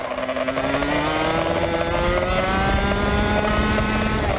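A 125cc kart engine races on a track in Florida. It is a loud, high-revving buzz with a strong tonal whine that holds near-steady pitch throughout, and there are no voices.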